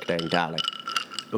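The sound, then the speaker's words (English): Ice and glass clinking lightly as a Moscow Mule cocktail is stirred. A short spoken phrase comes first, then a few faint, high, irregular clinks. “yes, Moscow Mule. That's the sound of me stirring my drink.”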